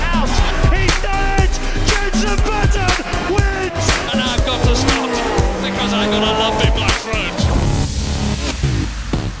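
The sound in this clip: Formula racing cars accelerating at a race start: a loud, dense roar of several engines with whining tones that shift in pitch, plus squealing tires, continuing without a break.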